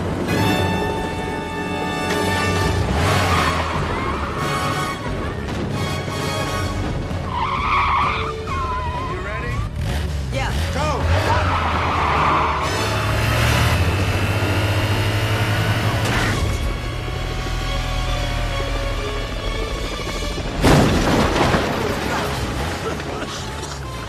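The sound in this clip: A motorcycle engine revs and roars as two handcuffed riders share the clutch and throttle, a loud, continuous drone with wavering pitch and tire squeals, while people talk at times.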